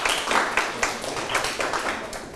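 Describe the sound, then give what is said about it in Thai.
Classmates clap for a student's correct answer in a classroom: a short burst of group hand clapping with uneven pulses, louder at the start and gradually thinning out. “ตอบถูกปรบมือให้พงธนาเช่นเดียวกัน”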